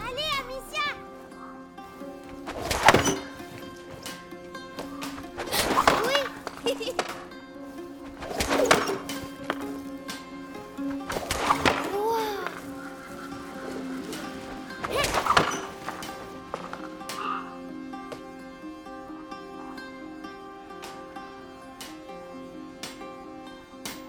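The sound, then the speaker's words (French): Stones thrown at targets, with five sharp impacts spaced roughly three seconds apart over a steady tonal background. “Vous avez six pierres, six tirs possibles. Il vous reste plus qu'à toucher le plus de cibles.”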